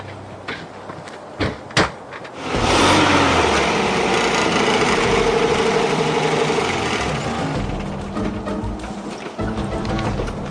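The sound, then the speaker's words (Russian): A car engine as the vehicle drives off to answer a shooting call in a crime drama: two short thumps, then the engine roars up loudly and holds a steady, rough drone before easing slightly. “Принял, едем. Не догадки это, дед. Садись в машину.”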